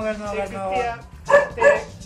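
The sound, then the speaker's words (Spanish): Dog barking: two sharp, loud barks close together come after a stretch of a voice talking. “¡Cállate, perro!”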